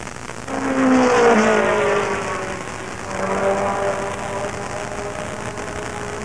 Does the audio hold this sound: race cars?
yes